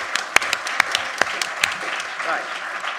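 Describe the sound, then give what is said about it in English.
Audience applause welcoming a speaker at a talk on democracy: a few sharp, separate claps stand out over a low, scattered patter. “Can we give him a warm welcome?”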